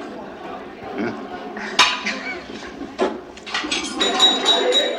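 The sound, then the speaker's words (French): Knife and fork clink and scrape on a plate as a leg of lamb is carved, with a few sharp metallic knocks among softer scraping and people talking quietly under it. “Et oui, on découpe le gigot ce matin”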